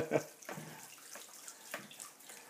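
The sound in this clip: Tap water runs over noodles being rinsed, with faint, uneven splashing that comes in a few soft bursts rather than a steady stream.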